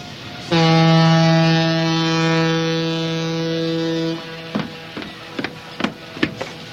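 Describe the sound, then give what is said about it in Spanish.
A ship bound for the Galápagos Islands sounds one long, deep, steady horn blast lasting several seconds, followed by a few sharp knocks and clatter. “Ay, señorita, este es el barco que va a las Islas Galápagos.”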